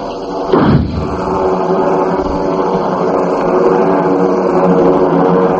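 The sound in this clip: A flare gun fires with one sharp thump and a brief falling whoosh, standing out from a steady, loud engine drone that continues alone to the end.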